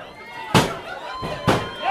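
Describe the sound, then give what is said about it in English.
At a wrestling match, a wrestler is chokeslammed to the mat, giving two heavy thuds beneath a commentator's excited talk. “Oh, Razorhawk bumped his head on that pipe. Ah, oh, big time choke slam.”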